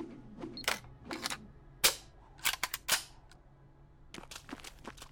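MP5 burst fire in a zombie shooter video game: many sharp, dry, crackling shots fired in quick clusters, loud and punchy, with no voices.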